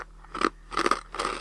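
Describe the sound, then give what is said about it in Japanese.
Three crisp crunching bites into a Kameda Seika Hitokuchi Hanten fried-rice flavoured rice-cracker snack, evenly spaced with brief quiet gaps between each crackly chew, no talking. “今日のおやつはこちら。亀田製菓一口飯店チャーハンです。なんかね、すごい、サクサクしてる系。”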